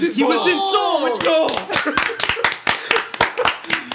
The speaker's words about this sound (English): Oh, the live studio audience. Thank you. Thank you. You're too kind. You guys have been way too quiet for the past like 8 episodes. Love you guys. You really let us suffer through 38 minutes before you chimed in with your applause.